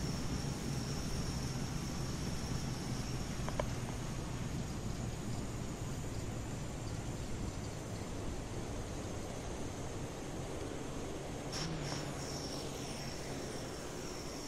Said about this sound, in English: Brakes and reverse thrust operated.